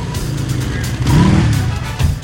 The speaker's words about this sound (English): He revs the engine, making it rock up and down.